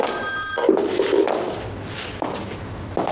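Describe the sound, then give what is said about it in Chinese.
A telephone rings briefly at the start, signalling an incoming call. Soft thuds and rustling follow once the ringing stops. “来电话， 接个电话啊。”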